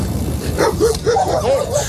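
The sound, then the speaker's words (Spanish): Dogs barking at a vehicle: a quick run of several high, sharp yips and barks over a dense, noisy rumble. “Perros que le siguen, perros que le ladran, que lo escoltan o que casi acaban bajo las ruedas.”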